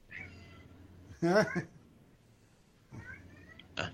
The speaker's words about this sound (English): I'm sorry if you hear the cat in the background. He's being a little mouthy right now.